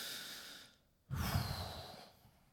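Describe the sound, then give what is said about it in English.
A deep, audible breath: a soft, airy intake, then a brief pause, then a louder, longer, breathy exhale that slowly fades away. “I took a deep and audible breath, like we just did. One of those where you go.”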